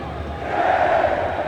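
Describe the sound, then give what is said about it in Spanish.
Norwegian fans shouting and chanting at a match, a dense crowd roar that swells and holds at a steady, loud level. “Calientan el ambiente los noruegos con sus gritos, con sus movimientos, porque no son solo gritos, sino que cada festejo hay coreografía, o de remo, o con las palmas hacia abajo.”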